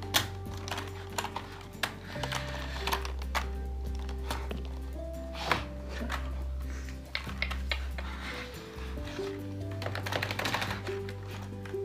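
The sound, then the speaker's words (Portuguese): Typing on a small keyboard: quick, light taps in uneven bursts, fairly faint over a steady low hum. “Digita aí no tecladinho, digite.”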